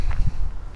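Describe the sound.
Footsteps walk into a brown, leafless forest in late winter, with a few soft, crunching steps over rustling ground cover in a short burst.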